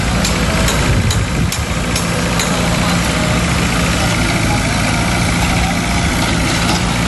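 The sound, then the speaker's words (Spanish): Heavy construction machinery idles at port building works, making a steady, loud low engine rumble with vibration throughout, a few sharp clanks early on, and some voices mixed in. “Sonaban este sonido de las obras porque se están construyendo allí también”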